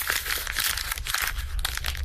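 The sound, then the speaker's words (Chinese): An envelope and letter paper being crumpled into a ball: continuous crackling and crinkling of paper, dense and steady for about two seconds, with no voices. “祖祖的手紧紧收缩，把信封和信纸攥成了一个疙瘩”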